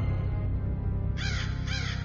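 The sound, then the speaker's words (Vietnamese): Crows cawing, a flight of three black crows bursting from a forest edge, give two harsh, raspy caws in quick succession over a steady low hum. “chợt nơi bìa rừng bay vút ra 3 con quạ màu đen, lao thẳng tới phía gấu.”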